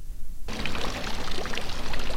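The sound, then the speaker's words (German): Cold, clear water splashing into an octagonal granite fountain in Malans, a steady, fairly loud rush that starts abruptly after a short quiet moment and then continues without a break. “Glasklar und kalt sprudelt Wasser in einen achteckigen Brunnen aus Granit.”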